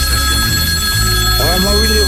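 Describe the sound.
An incoming telephone call rings with steady, sustained electronic tones, loud and continuous throughout, while people talk over it.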